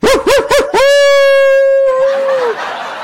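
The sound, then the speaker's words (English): A dog outside gives three short, loud barks, then a long sustained howl that holds its pitch before sliding down and fading at the end. “I'm not sure if you can hear it, but the dog is barking outside”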